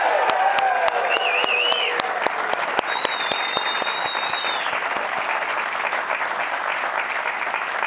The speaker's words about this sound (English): We are joined by a live studio audience. They sound so good. Let's hear them again, shall we?